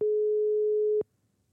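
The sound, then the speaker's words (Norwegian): A telephone ringback tone heard while calling someone: a single steady, mid-pitched beep lasting about one second, then quiet. “Ok, vi starter med å ringe Lysne.”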